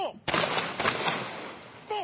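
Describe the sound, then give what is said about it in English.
A police rifle guard unit fires a ceremonial salute at a memorial ceremony: a sharp, loud volley crack, a second burst shortly after, then a long rumbling decay, with a voice heard briefly at the start and end. “A police rifle guard unit fired a salute, followed by 2 minutes of silence.”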